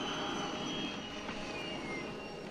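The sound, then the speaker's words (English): A hovering landspeeder racing over desert sand gives a steady, jet-like roaring drone laced with thin, high whining tones, holding an even loudness throughout. “Luke and Rukio race above the desert sands and the battered lands today. Soon, they overtake the waddling droid.”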